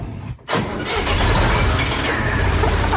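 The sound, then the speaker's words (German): A 1977 Fendt tool-carrier tractor with a front tipper starts up. Its engine catches within the first half second and settles into a loud, steady, low-pitched running rumble. “Ein Fendt-Gerätetraktor mit Kipper vorne dran aus dem Jahr 1977.”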